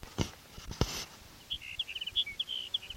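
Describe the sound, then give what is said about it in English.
Sage sparrow song: a rapid run of short, thin, high-pitched notes, faint against a quiet background, after a couple of brief soft knocks. “Here's Sage Sparrow number one for this noodle colony.”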